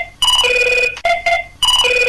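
An electronic telephone ringtone as a caller joins a call-in farming program: loud, bright, warbling bursts of tone repeating in quick succession with short gaps, and no voices.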